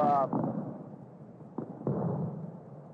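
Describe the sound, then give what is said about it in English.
Rockets and fireworks set off at a baseball stadium: two sharp bangs close together over a low, steady rumble, with a brief voice at the start. “A couple of rockets. That's a typical Bill Veeck demonstration. One of the greatest showmen in baseball. And Bill likes to set off the rockets and the fireworks whenever he has the opportunity.”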